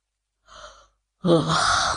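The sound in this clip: A person yawns: a brief, soft, breathy intake, a short silence, then a louder, drawn-out, breathy exhale.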